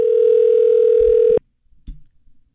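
Ringback tone of an outgoing telephone call: one steady, mid-pitched tone that holds for over a second, then cuts off abruptly, followed by a few faint, quiet noises.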